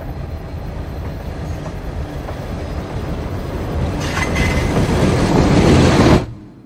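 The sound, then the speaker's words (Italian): A train runs on rails at night in Chile, coming from mines near the cordillera, a steady rumbling roll that grows louder and denser toward the end before cutting off abruptly; no voices. “In Cile ci sono treni fantasma che viaggiano di notte.”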